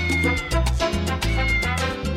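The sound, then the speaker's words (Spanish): Cat meows repeat in quick succession during a noisy Christmas celebration. They are loud, tonal calls about half a second apart over a dense, continuous harmonic background. “¡También los gatos! ¡Aunque arañen!”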